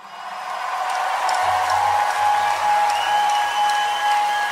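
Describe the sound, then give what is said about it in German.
Sustained applause from a crowd at an outdoor concert in a park, a dense, steady wash of clapping that holds at an even, fairly loud level for the whole stretch with no voices standing out. “Als der letzte Ton verklang, hallte minutenlanger Applaus auch diesmal durch den Park”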